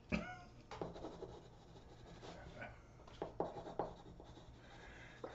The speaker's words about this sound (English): I gotta, I gotta write it down so I don't forget.